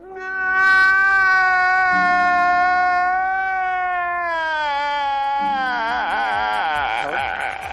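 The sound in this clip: A crying sound effect: one long, drawn-out wailing sob on a sustained tonal pitch that sags slowly, then wavers and trembles toward the end, loud and unbroken throughout.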